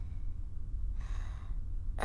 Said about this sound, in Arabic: خذ نفسا عميقا، عميقا، بعد،